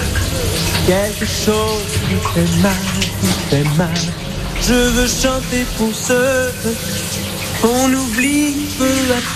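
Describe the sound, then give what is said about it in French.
A small trickle of running water flows steadily beneath a man singing a French song, deliberately masking the voice in a guessing game. The water stays constant as a hissing bed under the loud melody. “le petit bruit que vous avez entendu derrière le chanteur, c'était un petit filet d'eau”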